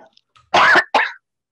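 Two sharp, loud coughs from a person who has just choked, the first longer and harsher, the second shorter after a brief pause, with silence around them.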